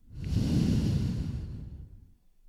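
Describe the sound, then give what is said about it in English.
Soft, airy nasal breath taken slowly during a calm breathing exercise: one gentle swell of rushing air rises and fades over about two seconds, faint and alone. “Breathe in through your nose and breathe out through your nose.”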